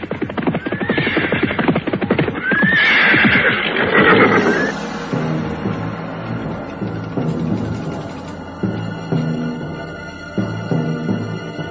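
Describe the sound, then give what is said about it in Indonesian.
Riders on horseback approach. A horse whinnies amid busy clattering early on, followed by a steady, rhythmic thudding pattern of hoofbeats, fairly loud and without speech. “terdengar derap orang-orang berkuda mendekat.”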